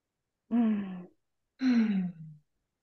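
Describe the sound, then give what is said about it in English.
Two deep breaths, each a voiced, sighing exhale whose tone falls away, separated by a short pause. “So take a couple nice deep breaths.”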